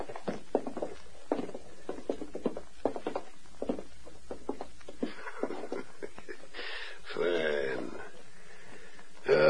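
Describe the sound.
Footsteps of two men walking toward a safe in a radio drama, a steady series of many light, clipped steps on a hard floor, followed by some rougher shuffling and clatter.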